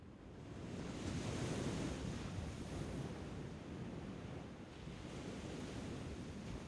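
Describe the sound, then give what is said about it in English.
Ocean waves at Lamai Beach as a storm is about to roll in, captured with a Neumann 191 microphone. The surf makes a steady, broad wash mixed with wind, swelling and easing gently without distinct breaks. “The sounds you're hearing are ocean waves recorded with a Neumann 191 microphone and Track 2 S Sound Devices 722 recorder. I captured them as a storm was just about to roll in off the coast of Lamai Beach”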